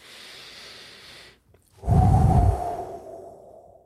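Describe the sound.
A deep breath taken just before a prayer: a soft, airy draw of air, a brief silence, then a much louder, heavier exhale with a low rumble that trails off. No voices.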